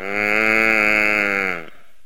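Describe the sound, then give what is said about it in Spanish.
A dairy cow moos once in a long, steady call with an even pitch, loud and held for about a second and a half before it cuts off abruptly. “Bueno, y también tenemos aquí una vaca lechera.”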